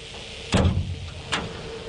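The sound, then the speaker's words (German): A dark green sheet-metal door at the base of a wind turbine tower opens with two sharp metallic clunks, the second softer, over the steady rushing whirr of cooling fans for the electrics. “Die dunkelgrüne blecherne Tür am Fuß des Windradturms wird geöffnet. Drinnen rauschen Lüfter, die die Elektrik kühlen.”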